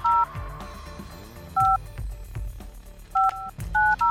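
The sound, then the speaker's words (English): Telephone keypad dialing tones from a landline-style phone: several short, clear beeps at uneven intervals, some in quick pairs near the end, over a low, murmuring background. “If you don't dial it fast enough, it won't do it.”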